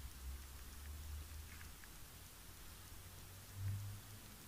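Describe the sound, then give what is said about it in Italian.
Rain falls in a soft, even hiss that stays faint and unchanging throughout, with no voices or other distinct sounds. “piove. Sul pianeta si sono formate delle nuvole e da queste nuvole si scarica la pioggia.”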